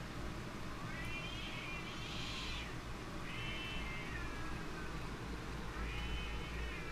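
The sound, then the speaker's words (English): A cat gives three faint, drawn-out meows, each a high wavering tone, spread across a constant low background hum. “I love this cat so much”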